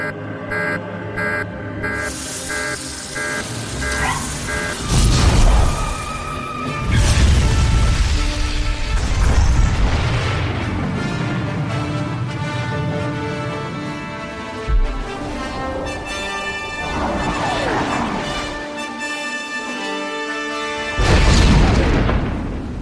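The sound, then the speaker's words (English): Deep booming blasts of a weapon launched at locked target coordinates, an explosion with a few heavy low impacts rising out of a sustained rumbling drone, accompanied by tonal music. “I'm dying to launch this baby. Target coordinates locked in. Fire.”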